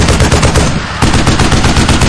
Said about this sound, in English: Sandra stroked the trigger, and the entire plane recoiled as the 50 caliber machine gun spit out gouts of flame between the spinning propellers.